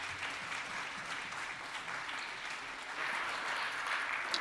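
Steady applause from a church audience welcoming a guest preacher and his family, a dense wash of clapping that swells slightly louder toward the end.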